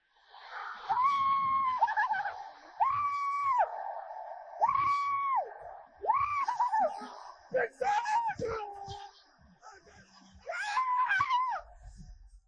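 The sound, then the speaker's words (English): High, wavering squeals from a burly, bearded football quarterback celebrating a touchdown throw, coming in several loud bursts with short gaps between them. “the tape we have on him throwing a touchdown and squealing was surprising and shocking to me, but not unbelievable.”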